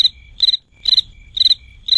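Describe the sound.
A cricket chirping: bright, high-pitched pulsed trills repeat in a steady rhythm about every half second, loud and clear with nothing else heard.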